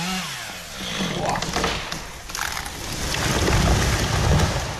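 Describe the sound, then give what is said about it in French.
A chainsaw cuts down a giant oak in a village forest at Balbronn, making a steady, rough, roaring buzz that swells and dips without pause throughout. “Et après quelques minutes de tronçonneuse,”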